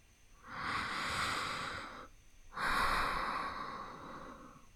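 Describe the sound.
Slow, soft breathing, heard as two long, drawn-out breaths separated by a short pause. Each breath swells and fades gently, faint and airy, with no talk over it.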